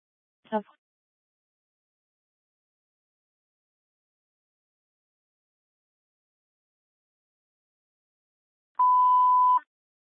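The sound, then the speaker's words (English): A 30-minute timer beeping over a rescue dispatch radio channel: a single steady electronic tone, short and alone near the end after long silence. “Your 30-minute timer's going off.”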